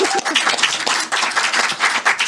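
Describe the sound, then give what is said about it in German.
Audience applause at a live show, a dense, steady crackle of many hands clapping that continues without pause for the whole stretch, fairly loud and even. “bitte Applaus.”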